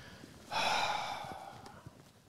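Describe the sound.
A wheezing breath: one long, rasping, airy exhale that starts abruptly, holds for about a second and gradually fades into quiet.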